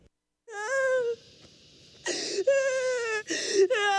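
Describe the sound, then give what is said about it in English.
A woman wails in sorrow over her children being sold away, in a dramatic scene. Several long, high, drawn-out cries are broken by short, sobbing breaths. “Stop! Stop your wailing! You let yourself be overcome by sorrow, you will drown in it.”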